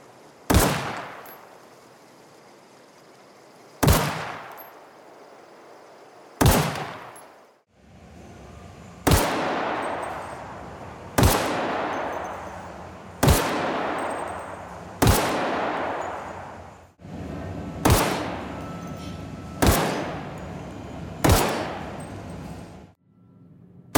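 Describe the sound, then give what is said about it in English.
Single shots from a video game weapon, with the sound swapped for spaces such as a small wood room and a small metal room. Ten evenly spaced sharp reports ring out, and their echo tails change in length and tone from shot to shot. “as the player traverses through those volumes, it just switches out which sound is going to play when you fire that weapon.”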